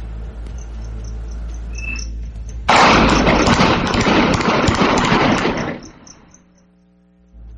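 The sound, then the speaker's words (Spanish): Gunshots ring out at night in a residential neighbourhood, recorded on a video. A dense burst of many loud, crackling shots lasts about three seconds, then stops abruptly, leaving a faint steady hum. “Durante la madrugada se habrían escuchado detonaciones de arma de fuego. Y vamos a escuchar cómo, pues lo que se vivió ahí en esta colonia.”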